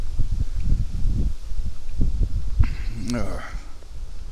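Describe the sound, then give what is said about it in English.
Wind gusts across an open plain, a steady low buffeting rumble that swells and eases, with a person speaking through it. “And the wind is blowing pretty good now. I'm out on the open plain. The wind is trying to blow me over.”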